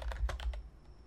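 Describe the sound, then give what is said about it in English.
Quick, light clatter of a computer keyboard as a Magic card name is typed into the Scryfall search site: a short burst of several keystrokes, then quiet. “I completely spelled that. Just type in Courtly. Come on, Scryfall.”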